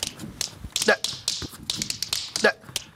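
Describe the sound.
Bright, sharp taps from tap dance shoes during tap-dance practice. The clicks and scuffs come in many quick, uneven bursts, loud and crisp with brief gaps between flurries.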